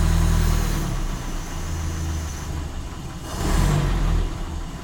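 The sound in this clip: An engine runs steadily after its choke is turned off, a low continuous hum that swells briefly in loudness toward the end, with no voices.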